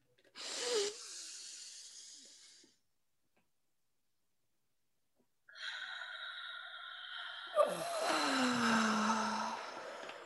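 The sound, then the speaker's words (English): A deep breath drawn in during a guided exercise: a single soft, breathy rush lasting about two seconds. It is followed by a silent pause and then a sustained ringing tonal sound. “Okay. Let's do a breath in.”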